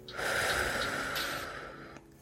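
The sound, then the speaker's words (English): A deep, slow breath from a person during a guided breathing exercise, one long airy breath that fades, followed by a short sharp knock at the very end. “Still with the eyes closed, I want you to inhale. And then I want you to exhale.”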